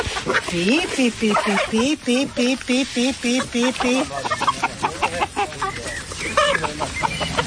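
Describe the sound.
Free-range hens clucking outdoors, a busy stream of repeated short clucks and calls with a person's voice mixed in among them.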